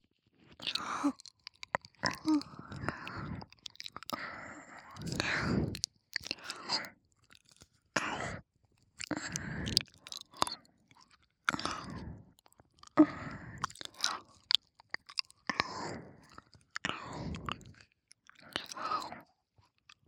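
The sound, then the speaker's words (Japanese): Wet, smacking chewing close to the microphone, repeating in many short bursts separated by brief pauses across the whole stretch, with no talking. “先生が気持ちよくなるまで噛んであげるからさ。”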